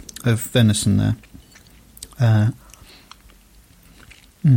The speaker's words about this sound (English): Yeah, pastry's excellent. Mmm. I love game pie. Lovely chunk of venison there.